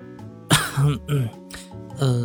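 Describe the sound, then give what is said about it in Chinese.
A man gives a short cough to clear his throat, a few brief voiced bursts that are fairly loud and stand alone. “他咳嗽一声”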